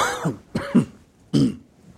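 A person clearing a tickle from the throat in a few short, rough, rasping bursts separated by brief pauses, with no talk over them.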